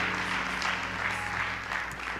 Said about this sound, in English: Let's clap our hands before the Lord while you are being seated.